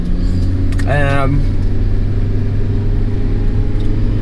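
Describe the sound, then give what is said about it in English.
A car driving to work on a weekday morning gives a steady, loud low rumble of engine and road noise that runs unbroken through the whole stretch, with a brief tonal sound near the start. “today is Wednesday morning. I'm driving to work as usual.”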